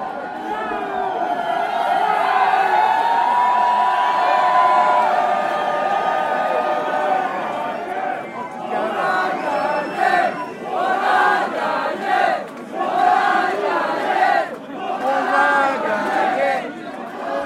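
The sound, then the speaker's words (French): A crowd gathers at a farm party celebrating a victory. The steady murmur of many voices is full of chatter and rises and falls in loudness throughout. “Ouais, il y a pas mal de monde qui arrive doucement, là. C'est bien arrivé. On entend la rumeur. Il y a du monde à la vacherie.”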